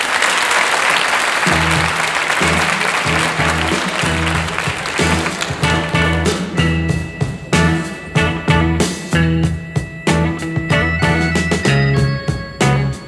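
Audience applause welcoming a rock group, a dense clapping roar that continues as the band's music starts underneath and grows more prominent.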